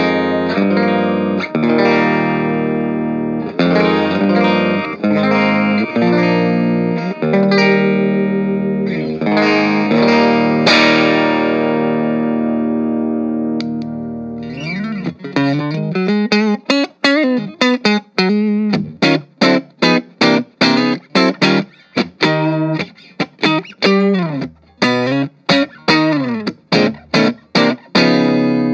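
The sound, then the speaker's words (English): An electric guitar plays through an Orange Crush 20RT amp on its clean setting with a single-coil bridge pickup. Sustained, ringing chords give way to fast, choppy staccato strums in a tight rhythm. “So we'll do the clean sound first on the bridge pickup.”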